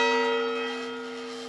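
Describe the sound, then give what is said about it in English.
A single stroke of the cemetery bell at Elmwood Cemetery, once rung for yellow fever burials, gives a clear metallic tone with steady ringing overtones that slowly fade. “Every time a yellow fever victim was buried, the cemetery keeper's young daughter Grace would ring this bell until she came down sick too.”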